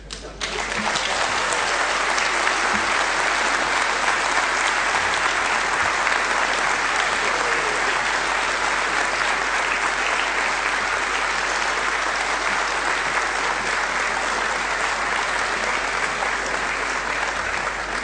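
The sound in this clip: Audience applause at an award ceremony as a special prize for best moderator is announced: dense, steady clapping that holds loud and continuous for the whole stretch.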